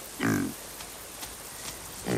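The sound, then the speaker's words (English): A small wild pig warns off a young cub with two short, harsh low grunts, one near the start and one at the very end, with only faint clicks and quiet ground noise between. “The two animals eye each other, but when the cub gets too close, the pig warns it off.”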